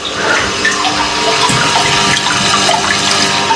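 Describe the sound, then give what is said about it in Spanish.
An indoor water fountain with a Buddha statue, in a warmly lit room with incense, gives a steady, continuous splashing trickle of running water, fairly loud and unbroken throughout. “¿Escucháis la fuente?”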